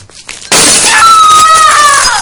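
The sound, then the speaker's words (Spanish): A drinking glass thrown and shattering in a bathroom: a sudden, very loud crash of breaking glass, followed by bright ringing and tinkling shards that fade away. “Bebe un vaso de agua sentada en la bañera. Tira el vaso.”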